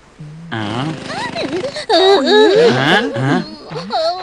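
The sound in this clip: A character whimpers and cries in high, wavering, sobbing bursts that slide up and down in pitch, with short gasps between them.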